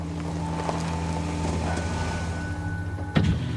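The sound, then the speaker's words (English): A car's power window rolling down on an empty New York street on a cold, wet March night: a thin, steady motor whine over a low, constant rumble, ending in a soft thump. “A window rolls down”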